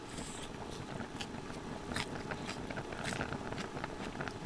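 Crisp, crunchy chewing of thinly sliced, quickly cooked daikon radish eaten with crunchy mizuna greens: many faint, rapid bites and crunches over steady background noise, with no talking.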